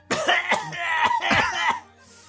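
Coughing and throat clearing: a few harsh, raspy bursts in quick succession, loud and alone, ending in quiet.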